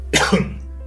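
A person coughs and clears their throat: one sharp cough and a short rasping throat clear in quick succession, then quiet.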